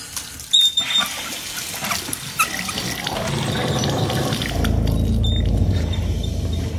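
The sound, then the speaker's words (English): Water rushes noisily through household plumbing pipes, starting with a few sharp knocks and a hiss, then swelling into a loud, steady, gurgling roar. “Have you guys ever had pipes do that?”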